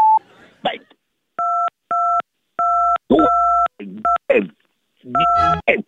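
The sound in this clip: Telephone keypad tones as key 2 is pressed over and over, the same short dual-pitched beep repeating several times in uneven bursts, broken up by an angry shouting male voice.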